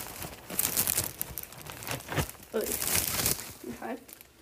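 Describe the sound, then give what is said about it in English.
English muffin packaging crinkles and rustles in bursts of sharp plastic crackling with short pauses, loud and close-sounding throughout. “Okay, getting my English muffin.”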